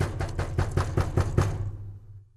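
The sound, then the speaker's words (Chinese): Hard, angry knocking on a door: a rapid, even run of many loud raps that then fade out. “它气呼呼地跑到兔子家，用力地敲门。”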